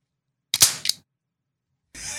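Sniper rifle fire in a video game: a sharp, bright crack followed by a short click, then silence and a longer burst of noise at the end.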